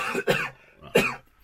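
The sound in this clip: A man coughs a few times: a soft cough, then a harsh one, a brief pause, and another strong, rasping cough, with no talk.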